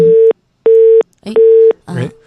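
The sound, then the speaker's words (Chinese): A busy tone follows a dropped phone line during a live sports radio call: three steady, evenly spaced mid-pitched beeps, with bursts of garbled noise between and after them. “我们的电话突然的这个信号断了，让导播再次重新的试图连线一下。”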